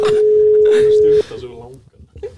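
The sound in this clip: A telephone tone sounds while a call is being placed: a steady, single-pitched hum holds for a little over a second, then cuts off abruptly as a man starts talking.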